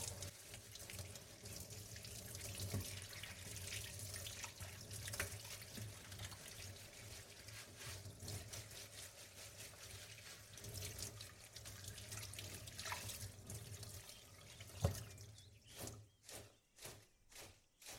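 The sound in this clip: Tap water runs in a steady, even stream into a kitchen sink as parsley and coriander are rinsed. The flow stops near the end, leaving a few short drips and knocks.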